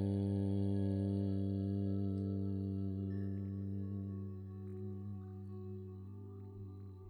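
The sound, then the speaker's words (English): A chant of the sacred syllable Aum, sung together once, holds a steady, low, richly harmonic tone for about seven seconds, easing slightly in loudness toward the end. “let's seal the awakening of our spirit heart by chanting the hymn of the universe, Aum, just one time together”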